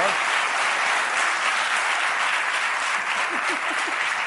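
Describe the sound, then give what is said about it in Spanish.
Audience applause for a guest: a dense, even wash of many clapping hands at steady loudness, filling the whole clip without a break. “Jorge Ponce, un aplauso.”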